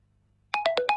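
Phone ringtone: after a brief silence, five quick, bright beeps sound in a fast run at shifting pitches, each tone clipped short.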